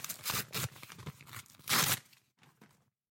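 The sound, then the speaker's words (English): Paper envelope being torn open: several short ripping bursts, then one longer, louder tear, followed by quieter crinkling rustles that fade out. “open the envelope here”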